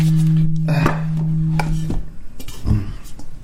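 Alchemy crystal singing bowls being handled: a low, steady ringing tone holds for under a second, then cuts off into a few light clinks and knocks of the bowls being moved.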